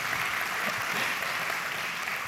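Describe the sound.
Brief audience applause welcomes a university professor as guest speaker. The clapping is steady and evenly dense throughout the short stretch, with no voices over it.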